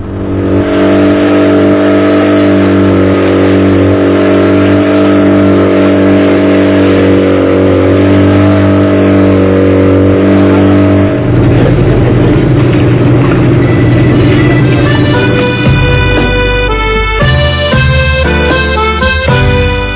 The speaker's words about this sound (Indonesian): Untuk mempercepat perjalanan, kami pun menyewa sebuah pompong, kapal kecil dari kayu dengan mesin tempel.